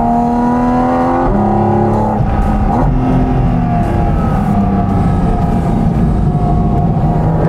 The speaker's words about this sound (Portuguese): Acelerar mais um pouquinho?